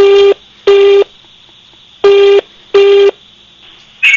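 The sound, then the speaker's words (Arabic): Telephone tones as a call is placed from a radio studio: four loud, identical mid-pitched beeps, each about a third of a second long with uneven gaps, then a brief higher chirp at the very end. “تعالي نجرب نتصل ويا رب يرد علينا.”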